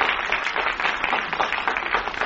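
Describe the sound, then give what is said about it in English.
Recorded crowd applause is played from a record: a dense, even burst of many hands clapping that stays loud and steady throughout, with no voices. “You really play that applause record good there. That's, he brings that in at a moment's notice as it wound up.”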